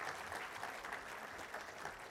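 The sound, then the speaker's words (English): Audience clapping for helpers at a church gathering: a soft, even wash of many hands, steady and faint, with no break. “Give them a clap.”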